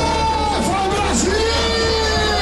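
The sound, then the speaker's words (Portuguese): Football fans cheer and yell in a bar while watching Brazil's national team, a loud, sustained crowd roar with drawn-out shouting voices riding over it throughout. “E a empolgação era tanta que o bar parecia arquibancada. A torcida ficou animada com o primeiro tempo da seleção.”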